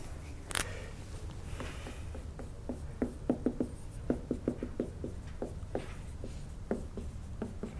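Chalk spiral drawings are wiped from a board during an astronomy lecture on galaxies, giving many quiet, quick scratchy taps and rubs in an irregular rhythm, alone without talk.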